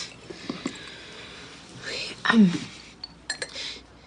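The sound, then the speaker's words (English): A spoon stirs sugar in a coffee cup, giving a few light metallic clinks against the ceramic, with soft whispery voice sounds beneath. “thoughtfully stirs sugar in her coffee cup, then shrugs.”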